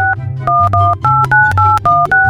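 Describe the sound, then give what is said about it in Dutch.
A telephone number being dialled on a keypad: a quick run of many short, bright two-note beeps at shifting pitches, each pressed tone clipped off before the next, sounding loud and alone. “En ik ga hem nu gewoon bellen”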